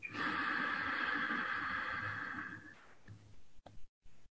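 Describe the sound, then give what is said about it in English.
A slow, deep inhale during a guided meditation: a soft, steady breathy hiss drawn out for over two seconds, then tapering into quiet with a few faint, brief sounds. “Taking a slow, deep breath.”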